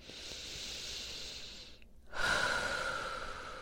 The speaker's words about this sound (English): I'm feeling in my body that I just need to take a deep breath in.